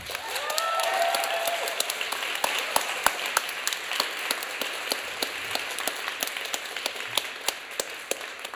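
Poetry slam audience applauding a contestant, a steady wash of clapping that holds at an even level throughout.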